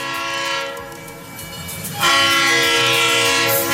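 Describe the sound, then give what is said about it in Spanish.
A neighbour's horn blares loudly at night, heard from a bedroom: a sustained, harmonic blast that carries through the whole clip and grows sharply louder about halfway, then holds steady. “De repente escucho una bocina de un vecino así, güey.”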